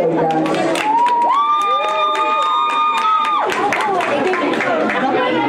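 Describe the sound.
A crowd cheering and applauding at a youth judo event, a continuous roar of clapping and shouting voices, with a sustained high-pitched cheer held above the din through the middle.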